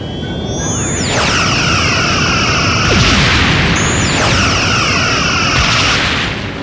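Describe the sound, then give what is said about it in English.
Starship phasers fire at full power at a warship in a space battle: two long, loud, sweeping energy bursts with a shimmering, ringing edge over a constant deep rumble. “Captain, I have a targeting solution. Return fire. Full phasers.”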